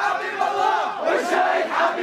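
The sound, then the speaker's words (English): An angry crowd of protesters, mostly young men, screams at a governor arriving at the site of a drowning tragedy. Many overlapping raised voices shout loudly and continuously. “So the governor shows up at the site of the tragedy, and he's greeted by this crowd.”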